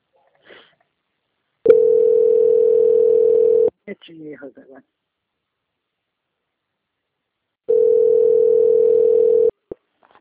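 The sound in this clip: Steady telephone hold tone on a bank customer call while it is transferred to quality control: two long, even beeps of about two seconds each, separated by a gap with a brief scratchy sound.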